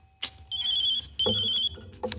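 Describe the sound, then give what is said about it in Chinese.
A telephone rings in two bursts of bright, high-pitched electronic trilling, separated by a short pause. A few soft knocks are heard around the rings. “电话。”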